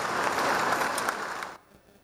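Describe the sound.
Warm, dense audience applause in a hall at a space agency event, given as a tribute to a man devoted to lunar exploration programs; the steady clapping holds loud, then cuts off abruptly in the last half second.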